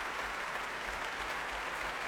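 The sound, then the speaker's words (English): Applause for an orchestra after a concert performance: a dense, steady wash of many hands clapping, holding an even level throughout with no pauses. “He claps the orchestra, leaves the stage again.”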